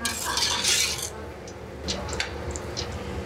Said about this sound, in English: And we're going to give it a stir so that it's just coated with a bit of the olive oil and the onions.